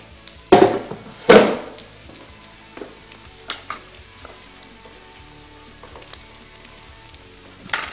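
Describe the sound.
Pasta hits a hot pan with two loud, harsh sizzling bursts in quick succession. A low, steady frying crackle follows, dotted with faint clicks and clinks.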